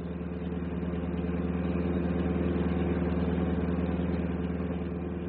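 A bus engine runs while the bus is driving, a steady low rumbling drone with an even vibrating texture. It holds at a constant level throughout with no voices.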